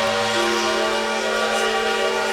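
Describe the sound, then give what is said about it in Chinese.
A ship's horn sounds as the vessel leaves port, one loud, continuous low blast with a rich, buzzing tone that holds steady for the whole clip, with no voices. “轮船缓缓离岸，汽笛声再次响起。”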